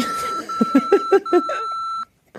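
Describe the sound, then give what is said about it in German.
An answering machine gives a long, steady electronic beep lasting about two seconds before it cuts off abruptly. A rhythmic run of vocal syllables sounds over the tone. “Oh, der Anrufbeantworter wird immer wertiger.”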